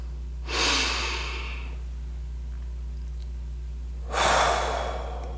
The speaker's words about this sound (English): I'd like to invite you to take a few deep breaths.